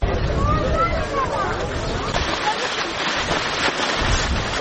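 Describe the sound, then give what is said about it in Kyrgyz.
Outdoor ambience at the Idomeni refugee camp on the Greece-Macedonia border: steady, blustery wind roar over a murmuring babble of many voices. “Бул жер Греция менен Македония чектешкен Идомени аймагындагы качкындар лагери.”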